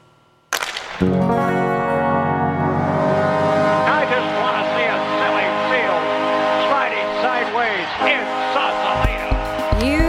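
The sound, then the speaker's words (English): A Zamboni ice resurfacer's motor running: a steady droning engine hum that starts abruptly after about half a second and holds at an even level, with squeaky high-pitched tones rising and falling over it. “As I walk over to the Zamboni, you can hear the motor running right now.”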